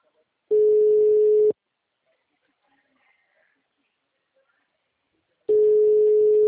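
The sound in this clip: Ringback tone of an outgoing phone call: two steady, low one-second beeps about four seconds apart, with near silence between them.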